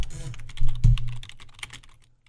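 Typing on a computer keyboard, with backspacing and corrections, gives a run of quick, uneven key clicks with a couple of heavier thumps near the middle, thinning out toward the end.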